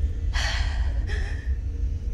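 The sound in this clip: Two sharp, gasping intakes of breath, the first strong and airy, the second a bit later and slightly weaker, with no talk and a low rumble underneath.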